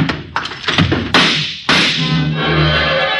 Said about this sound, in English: I grabbed the letter, then kicked over the table a split second before she fired.